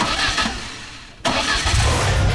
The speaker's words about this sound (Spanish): Hay un motor que está por encenderse y cuando acelere, nada volverá a sonar igual.